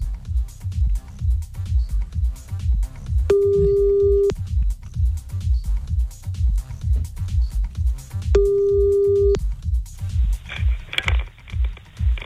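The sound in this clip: A late-night outgoing phone call ringing: two long, steady mid-pitched ringback tones, evenly spaced, over a pulsing rhythmic music bed.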